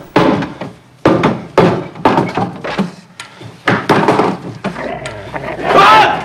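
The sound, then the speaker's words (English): Heavy wooden thunks as a gun butt knocks the boarding out of a window: several loud, sharp blows at uneven intervals, each followed by a short rattle. “uses the butt of the gun to knock out the wood from the window”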